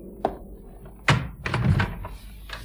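A door opens into a study room: a light click, then a solid thunk, followed by a burst of rustling movement and one last soft knock.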